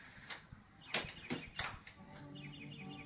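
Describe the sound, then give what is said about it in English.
A bird sings faintly in a few short, bright chirps spaced unevenly, followed by thin sustained tweeting notes near the end. The calls sound quiet and delicate over a soft, low background. “There's no music, only a bird singing.”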